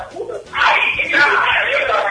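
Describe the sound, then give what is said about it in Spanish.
A crowd gathered before a game shouts and screams in a loud, dense, sustained roar of many voices that swells after a short, quieter start. “Bien, bien, con mucho grito ahí, ¿no? Sí, sí, estamos en la previa, ¿viste cómo son las previas acá?”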